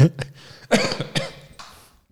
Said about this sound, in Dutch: Ik wou zeggen, het is hip tegenwoordig om om te hoesten in een podcast.